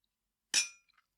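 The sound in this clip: Glasses clink together in a toast: one bright, ringing clink that fades quickly, followed by a couple of faint light taps.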